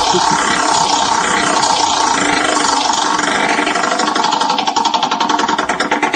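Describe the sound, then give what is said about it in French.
A wheel of names spinning for a name-draw game makes a loud, dense ticking rattle that runs steadily throughout, its separate clicks growing more distinct toward the end. “on fait tourner la roue des prénoms.”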